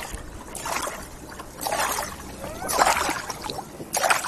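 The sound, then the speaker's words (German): Paddle strokes splash and drip as a kayak moves across water. A few brief watery swishes come at an uneven rhythm, moderately loud, with no talk. “Da vorne könnte noch was sein. Lass uns da mal hin paddeln.”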